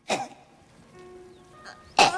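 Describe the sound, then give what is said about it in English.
A woman clears her throat in short, raspy bursts: one at the start, a faint one later, and a louder, harsher one at the end, with near quiet between them. “She starts to clear her throat.”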